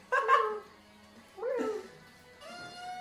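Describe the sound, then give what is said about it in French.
A person imitates a cat with meow-like vocal calls during a werewolf party game, three short harmonic mews of moderate loudness separated by brief pauses. “Tu fais super bien le chat.”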